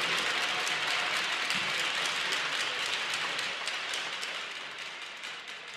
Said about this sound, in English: Let's give a hand for our players of the game.